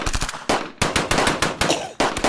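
Rapid bursts of gunfire from a shooting in a played video, loud and harsh, several clattering volleys in quick succession separated by brief gaps.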